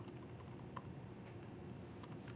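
Typing on a computer keyboard, quiet scattered key clicks tapping irregularly over a low background hum, with no voices.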